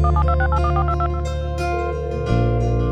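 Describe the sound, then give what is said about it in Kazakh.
Telephone keypad beeps, a quick run of short, stepped electronic tones, play over a loud, sustained music backing with no voices. “Өте қатты сағынып, қоңырау саған шалам. Номеріңді теріп, сенің ұялыны қолғалам.”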